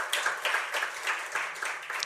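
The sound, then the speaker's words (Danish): A few people clap to approve a motion unanimously at a shareholders' meeting. The clapping is light and fairly quiet, with loose, uneven claps running for about two seconds. “så hvis man klapper, så er det også enstemmigt vedtaget.”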